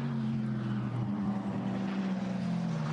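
A race car's engine roars steadily on the track, a loud buzzing drone with strong low harmonics that dip briefly in pitch and then recover.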